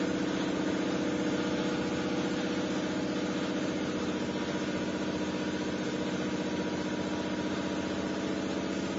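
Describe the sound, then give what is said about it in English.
A pump runs with a steady, unbroken mechanical drone that holds an even loudness throughout, with no voices. “Is that us, or is that, is that we're pumping, or is someone else pumping?”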